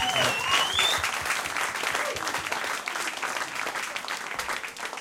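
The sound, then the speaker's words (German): Audience applause at a live show, moderately loud and steady clapping that eases slightly over about five seconds. “Applaus für euch. Applaus für euch selbst.”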